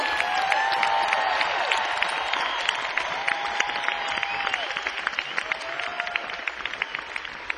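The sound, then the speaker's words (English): Warm applause for the crew of a live evening show, a long, steady wash of clapping with many sharp individual claps standing out and occasional whooping cheers from the crowd rising over it. “I ask all of you to help me give a warm hand of applause to my amazing crew”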